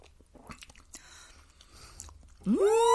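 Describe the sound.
Quiet chewing and soft bites as people taste a jackrabbit Christmas dish, a scatter of small moist crunches, then a voice breaks in with a loud exclamation that rises in pitch.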